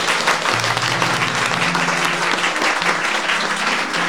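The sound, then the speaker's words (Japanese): Audience applause runs through the whole clip as a dense, loud, unbroken wash of many hands clapping. “拍手です。”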